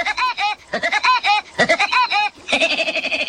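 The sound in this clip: A chicken sound effect plays as a run of rapid, nasal, warbling calls that come in quick bursts with brief gaps. The calls are loud and stand alone, with no talk over them.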